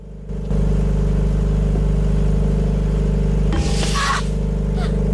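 An engine runs in an engine room, a steady low rumbling hum with a constant drone that starts just after the opening, and a brief hissing burst comes near the end.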